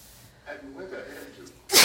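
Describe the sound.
A single sharp sneeze from someone with bad allergies bursts out loudly at the end, after a moment of quiet talk.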